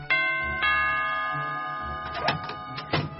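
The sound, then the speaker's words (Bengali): Doorbell chime ringing at a house's front door: two bright, ringing tones struck in quick succession, each sustaining and slowly fading, followed by a few softer knocks and rustles. “ঘড়ির কাঁটায় কাঁটায় 10টায় গিয়ে রমণী মোহনের বাড়ির সদর দরজায় bell টিপলেন।”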